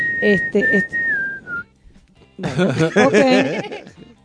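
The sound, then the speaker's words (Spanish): A person whistles a short, high tune that drifts downward in pitch, followed by people talking and chuckling. “le está chiflando algo a usted. El moño. Yo siento un chifle.”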